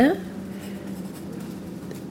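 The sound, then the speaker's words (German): Soft scratching and rustling of someone writing or leafing through the pages of a book about bees, a faint, steady papery texture. “Was schreibst du denn da? Ich? Nichts. Ich blätter nur etwas im Bienenbuch.”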